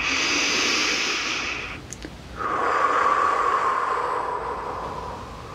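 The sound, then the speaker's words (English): A slow, deep breath is drawn in through the nose, then let out in a long exhale through the mouth. The two sustained, airy rushes are separated by a brief pause, with no talk. “One more nice deep breath in through the nose, out through the mouth.”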